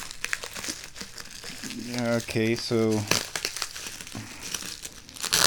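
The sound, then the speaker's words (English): Tape being peeled off the bottom of a tin, with crinkling and crackling of the wrapping throughout and a voice briefly speaking over it in the middle. “No, I just took off a piece of tape.”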